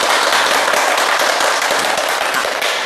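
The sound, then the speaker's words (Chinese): Dense, steady applause from an audience of students welcoming a guest professor from Communication University of China at a classroom recitation of classical patriotic poetry, loud and unbroken for about three seconds, with no talk over it. “我们掌声欢迎”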